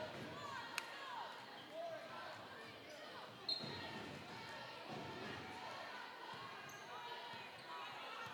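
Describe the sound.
A basketball bounces in repeated dribbles on a court during a Cavaliers game, the thuds steady and moderately loud beneath continuous commentary and crowd noise.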